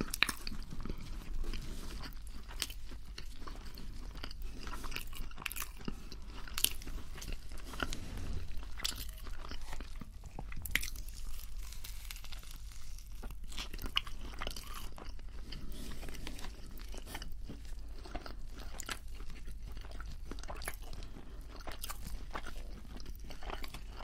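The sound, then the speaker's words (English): Crunching and chewing while eating a Burger King bacon burger and fries: continuous close, fairly quiet bites, crunches and wet mastication sounds run steadily throughout, with no talking. “It's the bacon that gives it the flavour. And I don't really eat bacon. And this tastes pretty good.”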